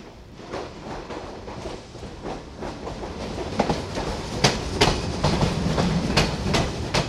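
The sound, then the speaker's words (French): A passenger train from Paris Nord bound for Valenciennes enters a station with a steady heavy rumble and a rhythmic clickety-clack of wheels over rail joints. The sound grows slightly louder and the clicks sharper toward the end. “7164 en provenance de Paris Nord et à destination de Valenciennes entre en gare”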